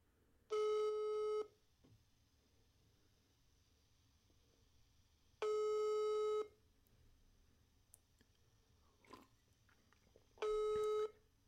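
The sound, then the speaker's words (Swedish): Telephone ringback tone on an outgoing call: three long, steady, even-pitched rings, each about a second long, separated by several seconds of near silence with faint background noise. “Nu, mina damer och herrar, ska vi ringa Frolle här. Se om han svarar.”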